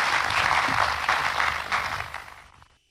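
Applause from the audience at an opening ceremony as the education minister is invited on stage: a full, steady round of clapping that thins out near the end and fades to silence.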